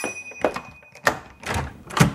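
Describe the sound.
A door being opened, heard as a few dull thunks and knocks of handling and latch movement, with a faint steady high tone in the background.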